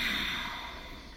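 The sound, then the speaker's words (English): A slow exhale during a guided breathing exercise: a steady, airy hiss of breath lasting a little over a second and fading slightly toward the end, with no talking. “Okay, let's breathe together. Exhale first.”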